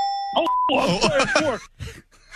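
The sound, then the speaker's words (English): A short electronic buzzer tone for a sports trivia quiz sounds as a steady, bright beep lasting under half a second, followed by voices talking. “what do we got for buzzer options?”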